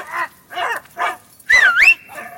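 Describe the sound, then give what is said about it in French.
Dogs bark at a château, a few short separate barks followed by a higher, pitch-bending yelping whine and one last brief bark. “Les chiens, là !”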